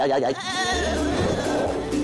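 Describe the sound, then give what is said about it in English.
A voice imitates Shaun the Sheep bleating while being pulled along by a lawnmower: a loud, sustained, quavering bleat that wobbles in pitch, with a low steady hum underneath. “I had to do things like, I had to vocalise Sean being pulled along by a lawnmower. And I remember kind of going,”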